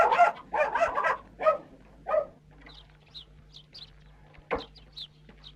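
A dog barks in a village yard with hens about: five loud barks in quick succession, then short, high, bird-like chirps and one sharp burst over a low steady hum.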